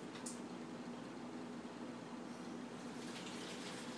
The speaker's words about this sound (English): putting my filtered water on